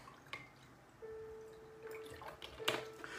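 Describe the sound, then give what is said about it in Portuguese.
Water is poured into a small drinking cup, a faint trickle with a sustained ringing tone as the cup fills, then a few small splashes near the end. “Meu copinho tá pequenininho hoje, então tenho que encher aqui.”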